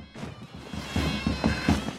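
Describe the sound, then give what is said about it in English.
Muffled thumps and scuffling of a struggle as a vampire is thrown to the ground, with a few soft impacts building toward the end, fairly quiet overall. “Suddenly, an arm appears from inside Nick's backpack and grabs him. In a struggle, he throws the vampire to the ground.”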